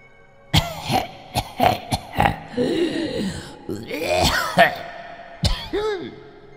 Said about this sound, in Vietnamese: Tiếng ho dồn dập thống khổ, giống như là một người bị bệnh viêm phổi, ho rũ rượi như muốn vỡ gan vỡ phổi, càng lúc càng gần cầu thang.